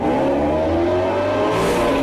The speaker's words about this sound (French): Il fonce dans un tunnel. La voiture de police les suit de près.